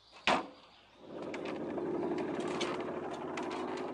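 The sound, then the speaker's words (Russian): A sharp click, then a motorcycle hidden in a forest starts up and rides off. Its engine holds a steady, moderately loud droning hum to the end. “Гена бежит в лес, открывает спрятанный мотоцикл и едет за Лёликом.”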